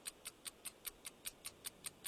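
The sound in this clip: A quiz countdown clock ticks alone: eleven quick, even, bright ticks at about five per second, faint and steady throughout.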